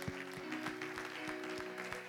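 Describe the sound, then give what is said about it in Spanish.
Applause at a church service: steady clapping with sustained keyboard tones underneath and regular low thumps throughout. “Si dieron un aplauso, claro que sí.”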